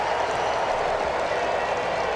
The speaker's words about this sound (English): So one down and Freddie Freeman is introduced. And cheers for the former Brave.